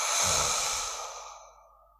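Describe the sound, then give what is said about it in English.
A deep breath drawn and let out during a guided relaxation exercise, heard as one loud, airy sigh that starts strong and slowly fades to silence over about two seconds. “Deep breath in. Relax it out.”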